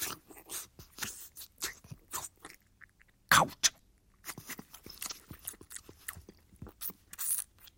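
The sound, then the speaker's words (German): A jeweller sucking on a ring in his mouth, heard as a faint string of wet clicks, smacks and slurping mouth noises, with one sharper, louder crunch-like burst near the middle. “Der Juwelier entreißt ihr den Ring, steckt ihn sich in den Mund, lutscht.”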